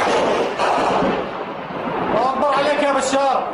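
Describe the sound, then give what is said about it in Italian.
Gunfire and crowd chanting from amateur video shot in Syria: a dense, harsh wash of loud rumbling noise, with shouted, chanting voices rising above it in the second half. “È questo l'unico genere di documentazione audio-video che arriva dalla Siria in questi giorni. Video amatoriali di cori e spari.”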